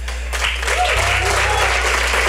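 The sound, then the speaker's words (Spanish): Audience applause for classmates at the end of a class presentation: loud, continuous clapping that swells early and stays steady, over a low electrical hum. “pedir un fuerte aplauso para mis compañeros”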